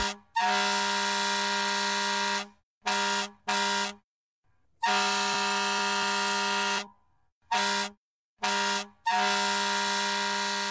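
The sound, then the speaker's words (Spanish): Truck air horn blasting seven times: loud, brassy, buzzing blasts in an uneven pattern of long holds and short toots, with short gaps between them. “¡Por supuesto! Ese fue el claxon de un camión.”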